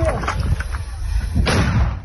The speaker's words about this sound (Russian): Мина в огонь.